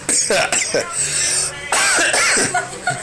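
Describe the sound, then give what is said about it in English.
Harsh coughing from a person tasting beer, several bursts in a row with short gaps between them, mixed with some talk. “I think someone's having vinegar because I go right to the back of my throat. anyway, I think we're going to shut up now before I start just making this a complete coughing expedition.”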